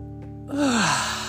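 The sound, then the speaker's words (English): A deep breath drawn in, an airy, breathy inhalation with a faint voiced sigh sliding down in pitch, set over a steady soft backdrop of sustained tones. “So, deep breath coming in,”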